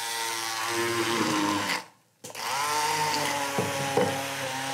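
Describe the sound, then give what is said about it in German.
A blender purees strawberries for a fresh sauce. Its loud, steady, whining motor runs, cuts out briefly partway through, then starts again and keeps running with slight changes in pitch. “Ich darf pürieren? Du darfst pürieren.”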